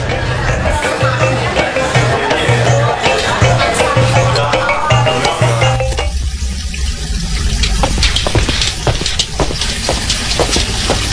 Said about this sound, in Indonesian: Itu suara apa, Bu? Kok seperti ada suara air? Iya, Pak, benar.